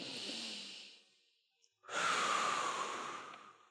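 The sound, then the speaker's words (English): A deep breath is taken together as a breathing exercise. One slow, soft inhale is followed by a short pause and then a longer, louder breath out. “Everybody take a big, deep breath with me.”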